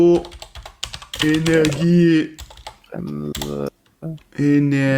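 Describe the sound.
Rapid clicks of a computer keyboard as a search is typed into Google, arriving in quick bursts while people talk over the typing.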